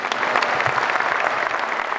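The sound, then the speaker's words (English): A big ovation from a good-sized crowd at the Coliseum after a new Mountaineers head coach finishes his opening remarks. The applause is dense and steady throughout. “A big ovation at the end of his opening remarks for new head coach Darren DeVries in front of a really good crowd at the Coliseum today.”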